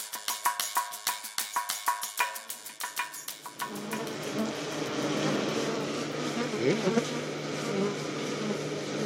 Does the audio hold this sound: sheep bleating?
no